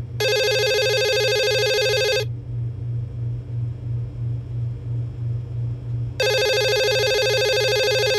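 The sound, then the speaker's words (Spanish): A telephone rings with a call that comes in shortly after nine at night. Two loud electronic ring bursts are separated by a four-second pause, and the second burst is cut off. A low pulsing rumble runs underneath throughout. “Pasan unos minutos de las 9 de la noche, cuando Encarna Milán recibe una llamada de su hermano.”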